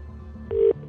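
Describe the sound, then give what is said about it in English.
Telephone ringing after a number is dialed during a radio cash prize call: one clear electronic ring, and a second ring just starting at the end. “Let's dial the number. Answer before it's rung five times.”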